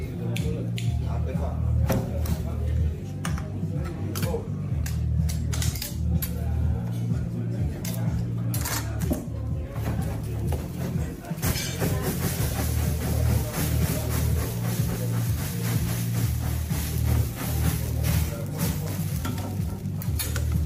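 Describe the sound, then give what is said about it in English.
Steady sizzling and crackling from a steak being flambéed and sliced in a dining room, with scattered light clinks of utensils over a constant low hum. “Food theater, let's see here, a steak being burnt in the dining room.”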